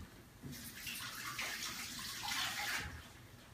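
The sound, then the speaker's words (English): Water runs from a tap as hands are washed while cooking, a steady hiss that starts about half a second in and stops shortly before the end, with no talking. “I'm just going to go wash my hands real quick.”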